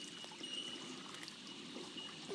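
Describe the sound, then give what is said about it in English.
Water flowing down a small waterfall makes a steady, soft rushing wash that continues without a break and stays at a low, even level throughout. “We put the leaf in the water and here it goes down the waterfall.”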